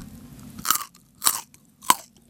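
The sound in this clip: Three crisp, wet crunches of biting and chewing a raw carrot that is bright red all through. The bites are evenly spaced and sharp, with no talk over them.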